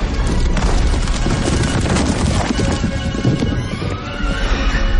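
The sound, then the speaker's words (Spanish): Loud crashing and rumbling as a dragon smashes the top of a tower and it collapses onto the dragons inside, a dense, continuous din of impacts and debris that barely eases over five seconds. “las altanubes golpea la parte alta de la torre y la desmorona sobre los dragones que hay dentro.”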